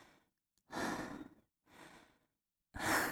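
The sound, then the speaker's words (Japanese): Slow, quiet breaths during a guided relaxation, three soft airy exhales separated by short silences, the last one slightly stronger. “ゆっくり息を吐いてください。”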